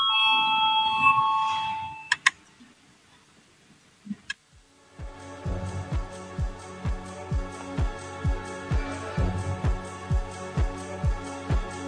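A voting bell rings in a parliament session. A brief tonal chime and a couple of sharp clicks come first, then many evenly spaced bell strikes repeat in a steady rhythm to the end.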